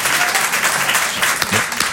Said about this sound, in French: Moi aussi, je m'applaudis